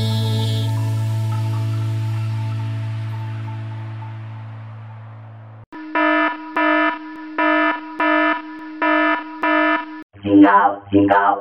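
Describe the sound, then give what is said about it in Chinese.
A warning alarm goes off in several evenly spaced pulses of a buzzing electronic tone, following a fading low musical drone. A voice speaks briefly at the end. “警告响了，发生什么事了？”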